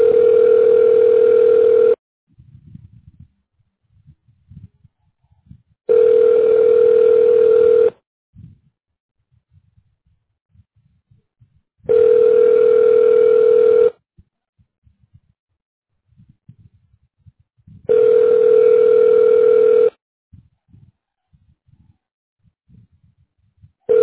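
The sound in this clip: Steady telephone ringing tone while a call is being forwarded, heard as four even two-second bursts separated by four-second silences, with a fifth burst just starting at the end.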